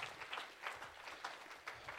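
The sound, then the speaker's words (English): Applause from an audience in a church: dense, continuous clapping that stays faint and even for about two seconds. “Can we give them a round of applause for their leadership?”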